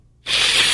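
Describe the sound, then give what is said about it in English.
A nasal spray vaccine being sniffed up the nose makes a sudden bright hiss that starts after a moment of silence and holds steady for about half a second. “That's the sound of an auto vaccine going up your schnoz.”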